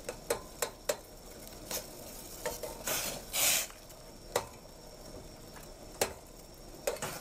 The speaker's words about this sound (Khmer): យើងប្រើម្ទេសក្រៀមជំនួសវិញយើងកូរម្ទេសក្រៀមនេះឲ្យវាបែក